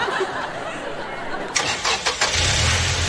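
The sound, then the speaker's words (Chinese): A car engine starts as a learner driver sets off in first gear: it cranks and catches with a few sputtering bursts partway through, then settles into a low, steady idle. “左脚离合，右手挡，一档起步开始”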